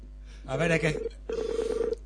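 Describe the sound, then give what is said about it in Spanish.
Telephone dialing tones, DTMF beeps placing a call overseas from a radio studio, come as one longer tone followed by a rapid run of short beeps. “Está marcando. Estoy marcando al Pío Cultura.”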